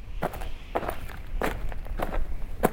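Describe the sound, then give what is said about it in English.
Footsteps crunch over bleached white limestone rocks and boulders while hiking up a dry wash, several firm steps at an unhurried, slightly uneven pace, fairly faint and with no talking. “We hike up a dry wash of bleached white limestone rocks and boulders along the trail to Devil's Hall.”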